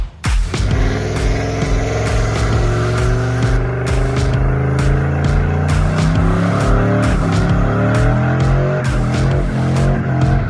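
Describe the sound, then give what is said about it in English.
A turbocharged Chevy Silverado pickup with an LS engine does a burnout, its engine roaring loudly and continuously as the revs climb, while the tires shriek in a sustained squeal throughout. “that is Brad Stapp's turbocharged Chevy Silverado with an LS and ripping a mad burnout right there”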